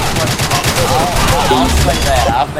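Gunfire in a video game shootout: dense, rapid shots run without a break, loud and steady throughout, like heavy fusillade or machine-gun fire.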